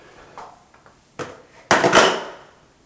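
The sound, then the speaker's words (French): A square metal bar being removed from a dirty lock: a few faint clicks and knocks, then a louder metallic grating slide that fades out. “Et là maintenant, je peux enlever ma barre carrée”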